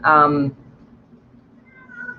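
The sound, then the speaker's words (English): A cat meows once at feeding time, a loud, clear, drawn-out cry, followed by quiet low rustling and faint background sounds. “That's my cat. You probably can hear. It's food time.”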